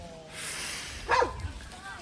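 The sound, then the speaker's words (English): Dog barking: a single short, sharp bark rising briefly above a steady background noise. “Excuse the dog. Doggy dog.”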